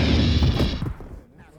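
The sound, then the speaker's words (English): A gunshot fired from under a table in a bar lands as one loud, broad blast that dies away over about a second into quiet. “I can shoot just as well under a table as across one.”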